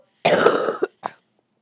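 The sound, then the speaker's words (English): A person coughs once in a long, rasping burst, then gives two short, quieter hacks that sound like throat clearing. “I finally coughed.”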